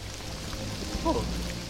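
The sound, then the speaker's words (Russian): Rain begins falling outdoors: a continuous soft hiss of drops on surfaces over a low, steady rumble, even in level throughout. “Это всего лишь дождь, осел.”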